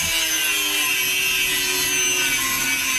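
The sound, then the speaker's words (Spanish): Continuous rasping saw noise as a tree is cut down with a handsaw, steady and loud throughout with no clear pauses between strokes. “aquí tenemos el audio de Shakira cortando el árbol. ¿A poco? Vamos a escuchar.”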